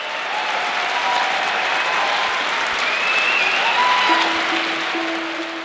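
A fanatically pro-Blair, paying audience greets Tony Blair with a sustained roar of applause and cheering, dense clapping that stays loud and unbroken from start to finish, with a few whistles cutting through.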